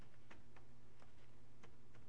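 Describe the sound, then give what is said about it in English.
Faint key clicks as a command is typed into the Octave prompt on a computer keyboard: a few sparse, light taps at uneven intervals over a low background hum. “So now I'm going to type Fourier guess.”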